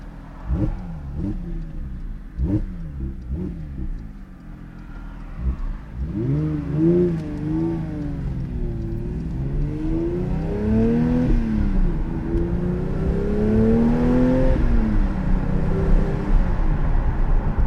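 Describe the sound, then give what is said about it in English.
A flat-six sports car engine with the sport exhaust open, driving on back roads outside a racing circuit with the windows up. It gives a loud, continuous growl whose pitch rises and falls repeatedly as it revs and accelerates. “let's put the windows up and revel in the sound of this wonderful flat six. The sport exhaust is open.”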